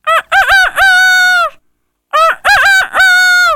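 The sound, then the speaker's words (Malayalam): A rooster crows twice, each a loud, drawn-out cock-a-doodle-doo with a stuttering start and a long held final note, separated by a short silence. “അടുത്തത് പൂവാങ്കോഴി.”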